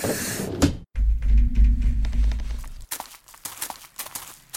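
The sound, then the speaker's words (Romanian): A hatch opening on a spacecraft: a short whoosh, then a loud low mechanical hum lasting about two seconds. The hum cuts off into a scatter of light clicks and rattles. “deschide trapa”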